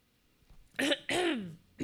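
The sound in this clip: Coughing and throat clearing after saliva went down the wrong way: two loud, harsh, rasping bursts, the second longer and more voiced, then another bursts in at the end, with no talk.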